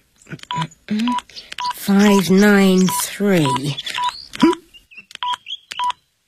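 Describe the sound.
Telephone keypad tones dial a number: many short, bright beeps in an uneven sequence, with people talking between a first few beeps and the later run of tones.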